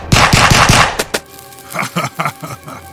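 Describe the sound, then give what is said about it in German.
Gunfire in an audio drama, bullets hitting the stony body of a monster: a fast, loud volley of many sharp shots lasting about a second, followed by scattered lighter cracks and impacts. “Die Kugeln prallen vom steinigen Körper des Monsters ab.”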